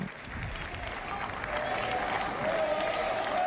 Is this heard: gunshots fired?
no